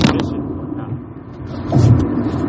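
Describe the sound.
Low, steady road rumble from inside a moving car, with a brief scrape at the start. The drone dips slightly in the middle, then swells again near the end. No voices.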